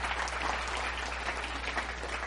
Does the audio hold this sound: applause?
yes